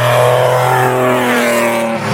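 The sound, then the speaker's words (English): A rally safety car, the closing 00 car running ahead of the stage, drives along a closed stage road with a loud, steady engine drone and a sustained tone that holds level throughout. “just got one of the safety cars coming through.”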